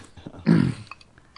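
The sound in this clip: A single short, low dog bark or growl rises briefly out of faint background noise, then fades back into quiet.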